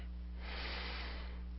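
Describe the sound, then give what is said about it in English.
A single deep breath, a quiet, breathy rush of air over a steady low hum. “Taking a nice deep breath”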